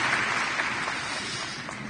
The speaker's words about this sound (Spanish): Démosle un aplauso a Jesús.